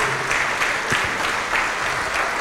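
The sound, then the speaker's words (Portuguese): A church audience applauds in praise of Jesus, a dense, even clatter of many hands that holds steady without a break at moderate loudness. “Vem aqui para frente e vamos aplaudir mais ao nome de Jesus.”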